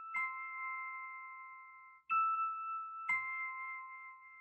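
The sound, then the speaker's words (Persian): A house doorbell chimes three times with clear, sustained electronic tones. The second ding sounds higher and shorter than the others, and the last rings out to the end at a fairly soft level, with no voices. “زنگ خانه اونها رو زدند”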